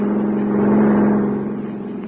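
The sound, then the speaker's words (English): A car drives past, its steady engine drone with a low hum building toward the middle and then easing off and thinning out, with no talk. “He drove right past us.”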